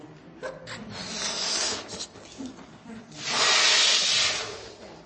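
Breathy blowing as a person inflates a balloon by mouth: a few airy, hissing puffs, the last one longest and loudest, with brief pauses between breaths.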